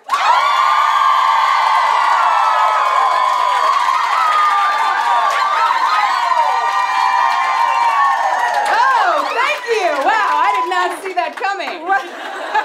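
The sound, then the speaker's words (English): Live audience cheering and whooping in a staged welcome for hosts coming on stage, a dense and loud sustained roar that breaks into scattered whoops, shouts and laughter toward the end. “There was an issue with the recording device. So could you make the noise that you would make if we were coming onto the stage for the first time?”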